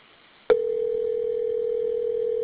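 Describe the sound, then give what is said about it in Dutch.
Sharp click followed by a steady, unbroken telephone tone while an office call is being transferred to another extension. “Dan moet ik eerst transfer drukken en dan 1874 en dan ophangen.”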